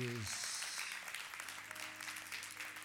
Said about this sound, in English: Let's give God a hand clap, because